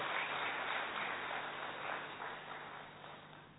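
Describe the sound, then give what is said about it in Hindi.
Faint applause for a participant who gave a clever answer. Soft, continuous clapping holds at a low level, then gradually tapers off at the end. “भी इनके लिए तालियां बजा दो.”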